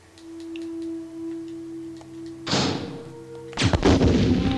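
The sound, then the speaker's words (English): Two heavy bazooka blasts in the video game Resident Evil, each a loud booming burst with a rough decaying tail, following a steady electronic hum. “Okay, get your bazooka ready, Jill, and combine that handgun ammo. Alright, let's go. Plum smithereens.”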